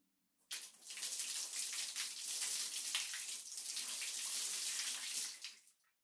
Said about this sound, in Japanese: それじゃあ、お背中流しますね。